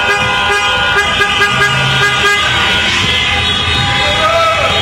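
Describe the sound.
Car horns honk in a street celebration after a national football team reached the World Cup final, with sustained and overlapping toots over road noise and crowd voices.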